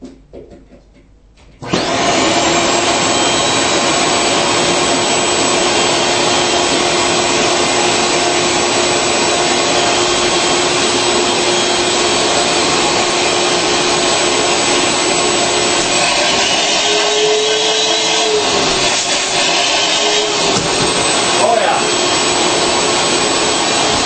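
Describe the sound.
A powerful central vacuum system for a large house starts when its hose is pushed into a wall valve. After a brief quiet moment it bursts into a loud, steady whooshing roar that continues unbroken for over twenty seconds.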